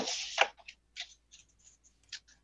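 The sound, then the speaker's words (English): Tarot cards are shuffled by hand, making faint papery rustles and soft, quick flicks in short, irregular bursts separated by quiet gaps, with no talk. “So I'm going to shuffle a little bit.”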